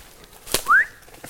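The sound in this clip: A person gives one short whistle as a signal for a mushroom find. The clear tone rises slightly in pitch and comes just after a sharp click, with no talk.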